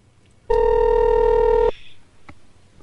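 A telephone tone sounds once as a single loud, steady electronic buzz lasting just over a second, then cuts off, leaving faint background noise.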